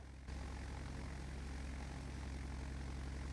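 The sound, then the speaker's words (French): A propeller aircraft's engine at takeoff power on runway 29, a loud steady drone with a pulsing low hum that starts abruptly and then holds constant. “Papa Hôtel autorisé, décollage piste 29. Ok, reçu Papa Hôtel, décollage.”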